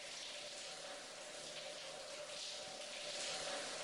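Shower water runs in a steady, even hiss of spray, continuous and fairly faint throughout with no voices.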